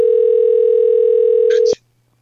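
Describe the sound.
A telephone dial tone hums as a call is being dialed, a loud, steady, pure tone that holds for well over a second and then cuts off abruptly with a click, leaving near silence.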